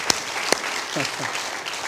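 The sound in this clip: An audience claps hands during a church worship service, producing a steady, dense crackle of applause at an even level, with a couple of sharper claps early and faint voices underneath.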